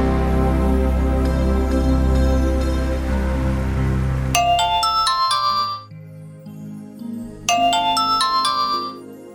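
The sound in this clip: A mobile phone ringtone plays loudly. A dense, sustained tonal passage gives way to a bright chiming melody of quick high notes in two bursts separated by a short gap, with no voices.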